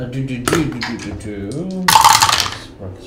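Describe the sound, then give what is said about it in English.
Dice clatter across a table during a tabletop role-playing game, a short burst of rattling hits following a spell of people talking. “Roll the dice.”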